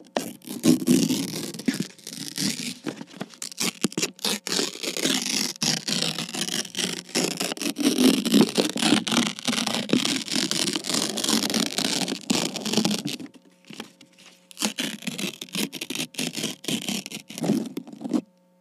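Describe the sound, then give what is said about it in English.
A paper envelope is handled and opened up close, giving steady crinkling, scraping and tearing rustles that run almost without a break, with one short pause before the rustling resumes. “Actually, I found this envelope in your mailbox. We will be using it for our next exercise.”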